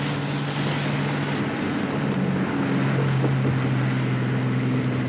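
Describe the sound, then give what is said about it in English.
A speedboat engine drones steadily with a low hum, buried in loud, continuous wind and water rush for the whole clip. No one speaks. “Oh, wait, nope, we're back to crazy speedboat, man.”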